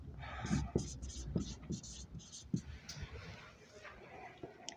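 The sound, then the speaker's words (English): Writing by hand: a series of short, scratchy pen strokes comes in quick bursts while people talk over them. “You can keep talking while I'm writing.”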